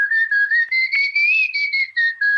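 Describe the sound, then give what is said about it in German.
Artistic whistling with the lips by a performance whistler: a clear, pure, fairly high tone in a quick run of short, separated notes. The pitch rises gently toward the middle and then settles lower, heard alone without talk. “Und es gibt auch Kunstpfeifer, die pfeifen auf eine andere Art. Also die pfeifen nicht so, sondern mit der Lippe.”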